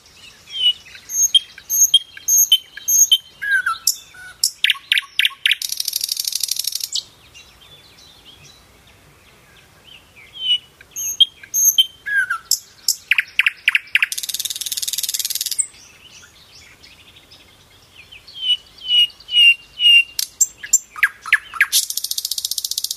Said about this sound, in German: Schauen wir uns noch einmal die Nachtigall jetzt in live an, wenn die singt.